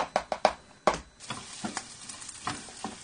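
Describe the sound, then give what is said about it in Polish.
Garlic and onion fry in a pan with a soft sizzle beneath sharp clicks and scrapes of a utensil stirring, a few quick knocks at the start and more scattered ones after, fairly faint with no talk. “Czosnek i cebula są już na patelni gotowe.”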